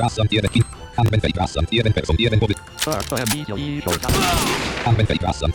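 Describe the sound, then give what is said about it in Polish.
Gunfire from a rifle firing two quick shots in a video game, heard as harsh bursts of noise under steady talk. “Właśnie, użyłem umiejętności tej, że mogę dwa razy szybko strzelić.”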